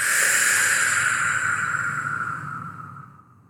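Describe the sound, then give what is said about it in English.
A powerful exhale during a guided breathing exercise: a loud, airy, hissing rush of breath that stays strong for about two seconds, then gradually fades away. “And exhale powerfully.”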